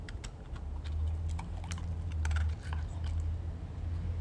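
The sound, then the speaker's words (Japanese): Crunchy chewing of a biscuit as it is eaten, with many brittle, irregular crackles over a steady low hum, moderately loud and without talk. “はい、いい音だね、はい、どうぞ、はい、”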